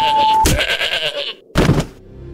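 Goat bleating: two loud, wavering bleats, the first long and the second short, after a brief steady beep at the start.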